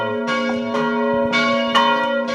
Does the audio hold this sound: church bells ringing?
yes